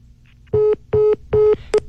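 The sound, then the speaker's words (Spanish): Disconnect tone after a phone call is hung up: four short, steady electronic beeps in an even rhythm, the last one briefer, with no voices. “¿Qué pasó? ¿Qué pasó? ¡Le colgó! Colgó. Devuélvale la llamada.”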